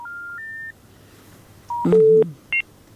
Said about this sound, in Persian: تماس از اینا قطع شد.